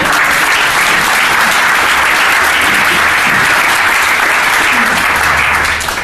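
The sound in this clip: Loud, sustained applause from an audience welcoming three panellists at a panel event. Dense clapping holds at full strength and eases slightly at the very end.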